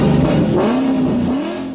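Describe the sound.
A Ford car engine revs in a loud, roaring burst. Its tone climbs, holds steady, then lifts slightly again near the end.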